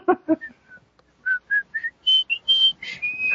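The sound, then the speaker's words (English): A person whistles a song, a run of clear, pure notes that climb stepwise in pitch and end on a longer held tone, with a brief low voiced sound just before the whistling begins. “You have to whistle. You know the song.”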